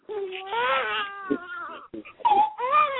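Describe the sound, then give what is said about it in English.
A newborn baby boy wails in loud, high, quavering cries, broken by brief gaps and a few catching sobs as the crying starts again. “That's my son, y'all. I apologize. He's a newborn. Now, y'all give him a little slack. That's all right. They're supposed to cry.”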